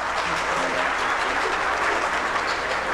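Steady, dense applause from an audience welcoming a baptism candidate, an even wash of clapping at constant loudness for the whole stretch.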